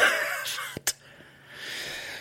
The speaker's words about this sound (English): Now, hear the wheezing because I ran this morning. It was freezing cold.